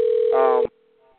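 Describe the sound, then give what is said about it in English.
A telephone tone sounds on a call-in line. A steady single tone is joined by a richer layered tone, cuts off abruptly after about half a second, and leaves a faint trailing tone. “Is somebody dialing? Do you hear somebody dialing? Yes, I hear. Yes, I hear somebody dialing too.”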